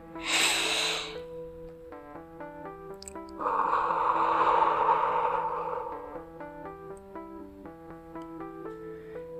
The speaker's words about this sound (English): Okay, so let's breathe in.